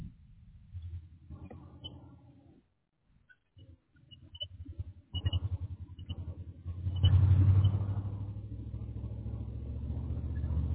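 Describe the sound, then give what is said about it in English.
Low engine rumble and road noise from a car being driven, heard through a phone call: a muffled, band-limited drone that drops out briefly, then returns and settles into a louder, steady hum. “Oh, you're driving.”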